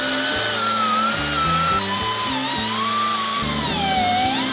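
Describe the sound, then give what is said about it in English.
A pneumatic air tool works a sharp edge clean with a loud, continuous high-pitched whine that drifts and wavers in pitch throughout, never pausing. “now we got a little air tool action here. Get up here and clean this sharpness off.”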